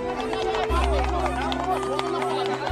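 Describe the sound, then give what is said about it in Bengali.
Crowd uproar breaks out among onlookers at a street performer's show at dusk as a silk handkerchief is tied over the performer's eyes. A continuous babble of excited voices runs over a low, sustained droning tone. “ভিড়ের মধ্যে থেকে একটা হই হই রব উঠল।”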